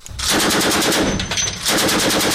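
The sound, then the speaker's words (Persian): Naval warships firing guns at sea targets during a joint naval exercise in the Indian Ocean: loud, rapid automatic fire in two sustained bursts separated by a brief, slightly quieter lull. “تیراندازی ناوهای ایران، چین و روسیه به سمت اهداف دریایی”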